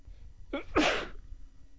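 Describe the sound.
A single sneeze: a brief sharp intake of breath, then a louder, breathy burst, heard alone against a quiet background.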